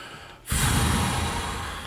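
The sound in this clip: A voice imitates a long, breathy groan, as if stuck behind slow-walking elderly people in a department store. It starts abruptly about halfway through and stays loud, rough and airy until the end.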